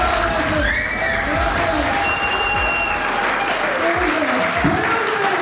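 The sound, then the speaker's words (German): An audience of inmates applauds at a comedy show inside Hagen prison. Dense, loud clapping continues without pause, with some cheering mixed in. “So klang es am Abend in der Justizvollzugsanstalt in Hagen. Kein gewöhnlicher Gefängnisalltag, sondern eine Comedy-Show.”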